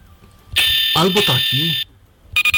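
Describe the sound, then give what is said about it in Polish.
Electronic alarm tone from an Android phone: a bright, steady, high-pitched ringing that lasts over a second while a voice speaks over it, then cuts off and starts again just before the end. “Teraz dźwięki alarmu.”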